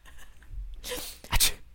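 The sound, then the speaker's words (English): A person sneezes during a mock graveside scene beside a casket: a breathy build-up, then one sharp, loud, explosive burst. “I sneezed. I sneezed.”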